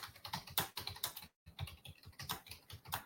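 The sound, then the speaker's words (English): Typing on a computer keyboard: a rapid stream of crisp plastic key clicks in uneven bursts, with one short silent pause near the middle before the tapping resumes at the same busy pace. “I will type the answer here just in case.”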